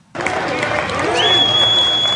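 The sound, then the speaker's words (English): Cheering and applause rise from a crowd walking through the gates of Disneyland in California as the theme park reopens after a 13-month COVID-19 closure. The loud, dense roar is sustained throughout. “People cheered as they walked through the gates of Disneyland.”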